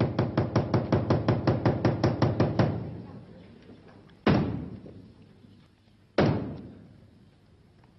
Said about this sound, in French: Il me semble qu'il est grand temps de frapper les trois coups.